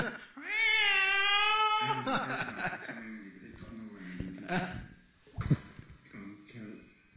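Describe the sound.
A cat in heat lets out a long, wavering, high yowl, and people talk afterward.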